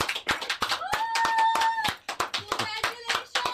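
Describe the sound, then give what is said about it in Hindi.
Hand clapping at a showroom ribbon-cutting inauguration, sharp separate claps in irregular, uneven bursts with short gaps between them. “ताली बज रही है. कौन है? ये ताली बजा रहे हैं सर.”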